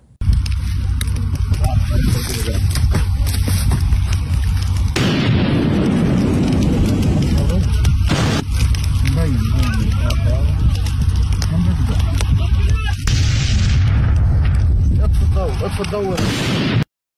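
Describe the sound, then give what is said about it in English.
A pipe bomb explodes in a video of a man throwing it around. Several heavy, sharp booms cut through a constant loud roar of harsh, crackling noise throughout. “People went through his social media and they found videos like this where he appears to be throwing some kind of pipe bomb around.”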